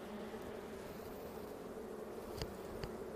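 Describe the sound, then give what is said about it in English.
Honeybees buzzing in an opened hive during a frame inspection: a dense, steady, low droning hum throughout, with a couple of faint clicks from a hive tool near the end and no talk. “Use our tool to help us get into the hive and gently pull out the frame.”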